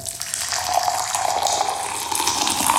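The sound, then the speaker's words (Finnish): Hot water splashes onto a hard surface in a steady, bright, hissing spatter that runs continuously without pauses or other sounds. “Kun kuuma vesi osuu kovaan pintaan, se hajoaa pienemmiksi pisaroiksi ja pitää näin ollen korkeampaa loiskeääntä kuin kylmä vesi. Ja sen vuoksi kuuma vesi kuulostaa tältä.”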